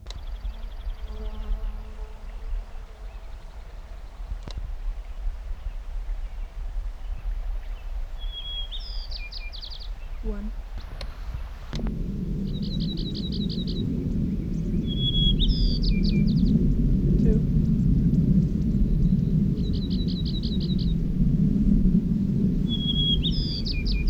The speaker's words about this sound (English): Cottonwood Creek, 7,900 feet, Wasik Range, Mineral County, Nevada, June 7th, 1977. White Crown Sparrow A.